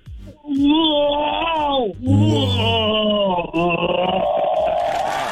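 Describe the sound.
A person imitates Chewbacca from Star Wars with three long, throaty moaning howls. Each is sustained and wavering in pitch, broken by brief gaps, with no other talk over it.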